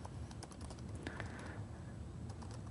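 Quiet typing on a computer keyboard as code is written, with many light keystrokes clicking in an uneven rhythm.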